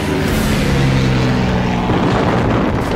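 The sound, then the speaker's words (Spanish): Airplanes dive overhead during an army attack on miners, giving a loud, steady engine roar with low humming tones that holds at a constant level throughout, with no voices. “Los aviones. Terrible, terrible. Los aviones caían en picada sobre nosotros,”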